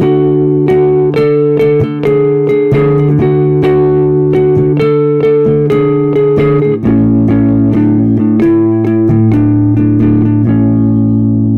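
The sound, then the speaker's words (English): An opening riff in the Lydian scale plays as a loud, steady string of quick plucked notes over sustained lower tones. Midway the low note shifts down, and the riff carries on without any voices. “the opening riff uses this Lydian scale. So it sounds like this.”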